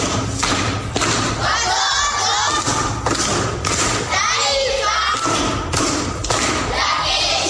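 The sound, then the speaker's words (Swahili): Children applauding a classmate at a primary school gathering, thick thudding claps mixed with cheering and shouting young voices, loud and continuous with a few brief surges. “Makofi kwa shangazi.”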